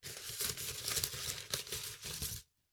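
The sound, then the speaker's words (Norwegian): Crinkling of a folded paper note being unfolded, a busy papery rustle with several sharper crackles that runs for about two and a half seconds and then stops abruptly, with no talk. “Ok, jeg tar første lapp.”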